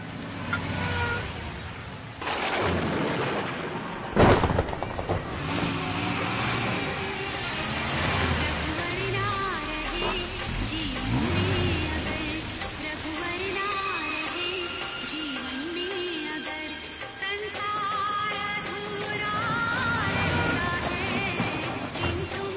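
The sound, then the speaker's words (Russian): A car speeding along a road toward Vrindavan in India: steady engine and road noise through the whole stretch, with voices heard over it. “И вот их автомобиль уже мчится по дороге во Вриндаван.”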